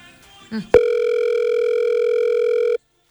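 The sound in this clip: Telephone tone of an unanswered call, heard as one loud, steady buzzing beep of about two seconds that stops abruptly. A brief voice comes just before it.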